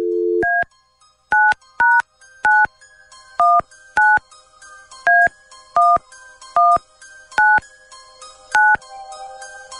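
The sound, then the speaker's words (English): Telephone keypad tones dialing a number: a brief low tone, then a long series of short two-pitch beeps pressed at an uneven pace, clear and steady, ending in a faint hiss. “Before we call her, are you sure you want all of this on the air? Yeah, that's fine. Okay. Dialing at random.”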